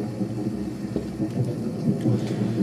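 Rain and thunder ambience: a continuous wash of rainfall over a low, rolling rumble, with a few brief sharper spatters and no distinct thunderclaps.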